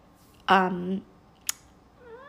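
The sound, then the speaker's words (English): A pet cat gives one short, flat "meh"-like meow, a brief harmonic call. A sharp click follows, and then a person starts talking. “if you hear a sound like a meh, that's my cat, Luna.”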